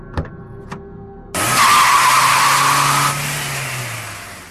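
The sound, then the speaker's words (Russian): Car tires screech in a loud, harsh squeal lasting about two seconds, after two short knocks. A low engine hum carries on beneath it and fades afterward. “Колеса вновь взвизгнули.”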